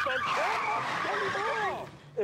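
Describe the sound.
A car's tires screech as it brakes hard for a rabbit on the road, a long, loud, wavering squeal that holds steady and then cuts off.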